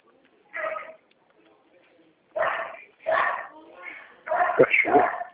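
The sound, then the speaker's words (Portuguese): A dog barks in several short, harsh bursts of uneven spacing, the last few coming close together and louder. “Cachorro? Tem um cachorro latindo aqui.”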